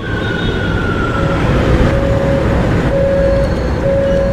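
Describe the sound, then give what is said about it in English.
A metro subway train gives off a steady, loud rumbling roar with sustained whining tones drawn out over it, continuous throughout without voices. “Iba a subirme en el metro para llegar a mi trabajo”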